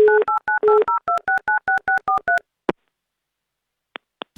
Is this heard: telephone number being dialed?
yes